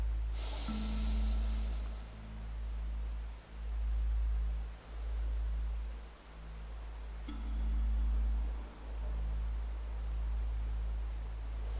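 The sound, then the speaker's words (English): Deep breaths drawn in cold air, heard as soft, airy rushes that swell and fade in a steady, slow rhythm over a quiet, hissing background with no talk. “Let's breathe in the cold air together three times on the count of three, two, one.”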